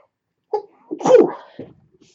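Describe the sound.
A single human sneeze, alone and fairly loud. A short breathy catch comes first, then the main explosive burst and a brief trailing sound.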